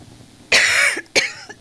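Two coughs from a tickle in the throat: a longer, harsh first cough followed by a shorter, sharper one, loud against near silence.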